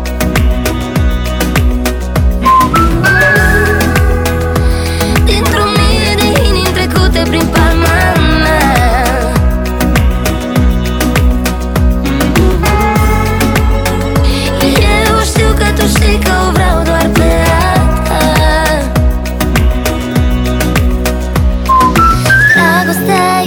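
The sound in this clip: Whistling carries the melody in a Romanian-language pop song, with bright high whistled phrases over a steady, loud beat and full instrumental backing that runs throughout.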